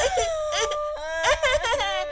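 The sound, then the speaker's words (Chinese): A frightened young child bursts into crying, with several loud, wavering wails and sobs broken by short catches of breath. The voice is high and strained and stands alone. “兔兔一直跟在他妈屁股后头，看到外奶猛然打他妈妈，顿时就吓哭了，抱紧了穗女的腿。”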